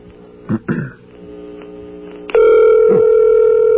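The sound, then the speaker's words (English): Telephone tones while dialing the operator: two short bursts sound first, followed by a loud, steady, buzzing telephone tone that starts abruptly and holds to the end. “You can dial three numbers to get an O operator.”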